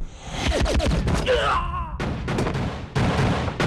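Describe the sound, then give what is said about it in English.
Gunfire crackles through an action film shootout as a rifle fires. Rapid shots run together in a loud, dense burst that lasts the whole moment. “The henchman aims his gun at Elmo, but Dakota blows him away.”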